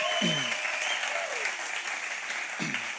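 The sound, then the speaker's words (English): A church audience applauds for its online audience, a steady wash of clapping for about three seconds, with a voice briefly heard over it at the start and again near the end. “Can we just give it up for our online audience?”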